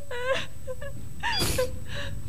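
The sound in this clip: Grown children wail and cry in grief, a wavering, high-pitched voice rising into several drawn-out cries broken by a breathy gasp, steady and moderately loud throughout.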